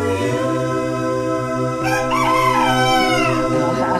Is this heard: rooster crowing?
yes